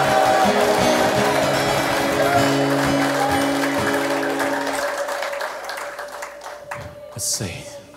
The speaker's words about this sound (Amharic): ታላቅ እልልታና ጭብጨባ ለአምላካችን ለእግዚአብሔር።